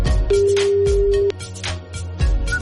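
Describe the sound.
Ringback tone on an outgoing phone call; one steady, mid-pitched tone lasts about a second, set against other busy background sound.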